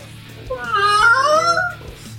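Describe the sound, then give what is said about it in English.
A cat crying at a back door gives one long, drawn-out, wavering meow of moderate loudness, heard alone over a steady low hum. “This cat makes me really sad. He just cries at the back door.”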